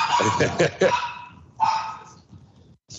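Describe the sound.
A dog on a leash barks and yips in a few short, loud, bright bursts close together, followed by quieter whimpering sounds.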